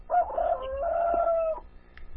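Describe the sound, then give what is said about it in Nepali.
A rooster crows once, a long, wavering, strained call lasting more than a second, clear and fairly loud against a quiet background, then falls silent. “भालेले आवाज सुन्नै दिएन। कहिले काहीँ म पनि त रेडियोतिर यसो आवाज सुनाउनु पर्यो नि भनेर होला नि।”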